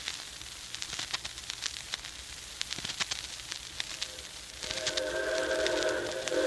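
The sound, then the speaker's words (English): A 4-6-4 Hudson type locomotive arrives as a hissy, crackling rush broken by many sharp bursts. Near the end the sound grows fuller and louder, and a brighter sustained tone joins the noise. “here she comes. Yep, right on time. Yeah, it's a 464 type locomotive. Looks like a Hudson.”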